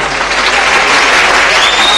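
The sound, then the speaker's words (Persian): An audience applauds in honour of the bride and groom at a wedding, producing loud, dense and steady clapping that holds at an even level throughout, with no pauses. “به عروس داماد تبریک میگم، شما به افتخارشون دست بزنید.”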